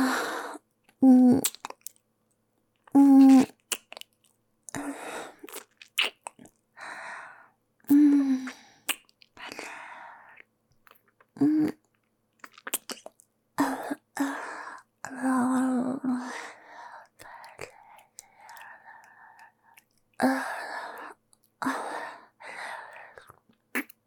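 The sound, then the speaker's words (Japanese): Kissing: wet mouth sounds and smacks in irregular bursts with pauses, mixed with breathy gasps, sighs and soft vocal moans. “キスして。お姉ちゃんのファーストキス。もらって。”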